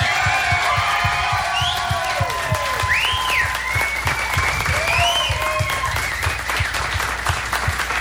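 Loud, dense audience applause welcoming a baseball broadcaster at a Sunday afternoon event, steady throughout, with a few whistles and whoops rising above the clapping.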